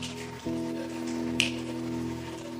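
A church audience snapping fingers: one sharp snap stands out over a sustained keyboard chord, with a few fainter snaps around it.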